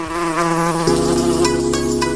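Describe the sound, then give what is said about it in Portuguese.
A female Anopheles mosquito, the malaria carrier, gives a loud, continuous high-pitched whine rich in overtones. The buzzing drone holds steady throughout, with a slight shift in pitch shortly before the midpoint. “causada pela picada de uma fêmea do mosquito Anopheles”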